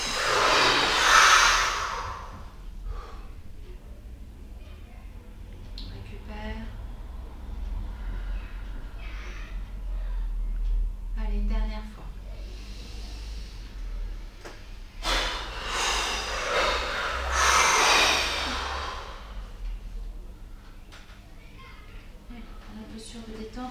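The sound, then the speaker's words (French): Deep breathing during a breathing exercise: a couple of long, loud, airy breaths, one at the start and another well past the midpoint, separated by a long, quieter stretch. “Une deuxième fois, on inspire encore, on rassemble encore. On met toute notre intentionnalité à l'expiration.”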